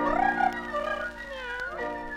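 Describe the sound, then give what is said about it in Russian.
A man's voice imitates a cat, giving two drawn-out meows whose pitch wavers up and down. “Я позвал вас сюда, дорогие мои кошечки, чтобы с вами познакомиться. Мяу. Мяу.”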